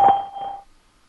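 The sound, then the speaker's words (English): Single electronic beep from a Skype call testing service before recording begins, a steady mid-pitched tone lasting about half a second that quickly fades to silence. “To Skype call testing service after the beep please record a message afterwards your message will be played back to you”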